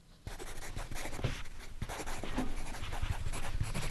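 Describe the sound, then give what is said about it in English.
A pen scratches steadily on paper as a name is written down by a member of an aphasia therapy group. The scratching is soft, continuous and rough, with small strokes and taps. “So you're writing down the name of one of the people in the group?”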